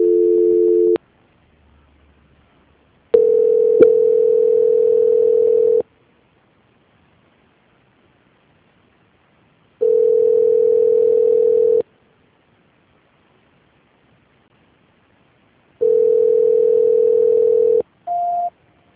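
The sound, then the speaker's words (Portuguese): Telephone tone sounds while a call is being transferred: a short first tone, then three steady beeps of about two seconds each separated by silent gaps, and a brief higher-pitched beep at the end. No voices. “Só um minutinho, tá, Guilherme, que eu vou transferir você. Transferência.”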